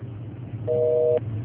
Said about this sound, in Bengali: লাইনটি ডিসকানেক্টেড হয়ে গেছে।